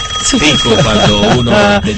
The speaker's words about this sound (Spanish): Así sonaba el teléfono.